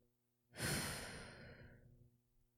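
A single long breathy exhale of cigarette smoke after a puff, starting strongly and then tapering away slowly, with no talk.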